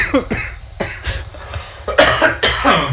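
Harsh, rough coughing fit from someone with something stuck in the throat: several loud bursts in a row, getting heavier toward the end.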